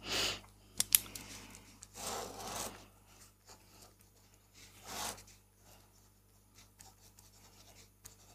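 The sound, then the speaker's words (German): A pen draws on a paper notepad in scratchy strokes of varying length with a few sharp taps, faint and unhurried, with no talk. “Ich kann es dir aufzeichnen. Ja. Bitte zeichne mal auf. Auf diesem wunderschönen Block.”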